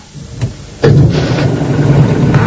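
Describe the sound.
A compressed-air car with a lightweight aluminium chassis and carbon-fibre body starts up. After a short, softer lead-in, the sound jumps abruptly into a steady, loud whirring hiss that holds evenly to the end.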